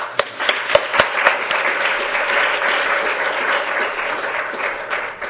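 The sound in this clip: Audience applause thanking a speaker after a talk: a few sharp, separate claps open it, then the clapping thickens into dense, steady applause that lasts to the end.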